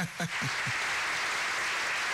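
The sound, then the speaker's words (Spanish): Recorded applause played back: a brief voice at the start, then a steady, dense wash of clapping that continues evenly to the end. “Es lo que tenía a mano, los aplausos.”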